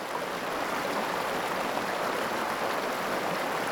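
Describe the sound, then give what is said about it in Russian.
Steady rushing flow of a river, a continuous, even wash of water noise with no pauses, heard on its own. “Это река.”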